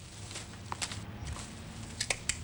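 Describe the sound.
Light footsteps stepping down onto a garden path, a few soft, irregular scuffing steps, faint and without any talk.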